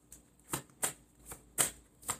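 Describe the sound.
Tarot cards being shuffled in a series of short, crisp riffling bursts, several in a row at a fairly even rhythm, soft and alone with no talk.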